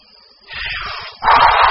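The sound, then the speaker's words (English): A voice imitates the wolf blowing down a house of leaves in a children's tale with a breathy, hissing blow: a softer gust first, then a louder, stronger burst of rushing air. “The wolf blows the house down.”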